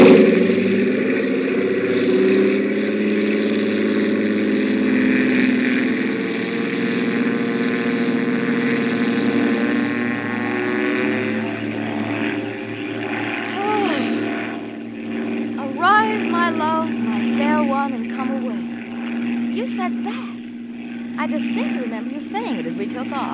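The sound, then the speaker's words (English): An airplane engine drones through a takeoff with a steady, loud hum and layered tonal harmonics. Voices talk over the engine during the latter half. “This is going to be the fastest takeoff in the books. Here we go.”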